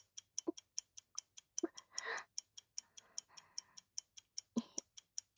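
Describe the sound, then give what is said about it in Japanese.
A clock ticks close to the ear. Many quiet, evenly spaced ticks keep a quick, steady rhythm, with brief soft rustling in between. “時計は耳元。”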